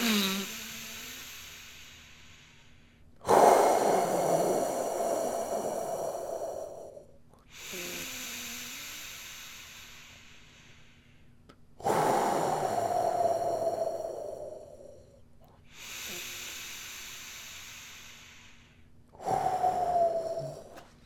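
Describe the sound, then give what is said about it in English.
Slow, deep breathing, drawn in and let out a few times in a steady rhythm. Each breath is a soft, airy rush that swells and then fades, with no other sound around it. “Take a moment. Take a deep breath. Deep universal breath. In and out. Three times.”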